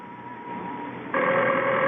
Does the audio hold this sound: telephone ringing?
yes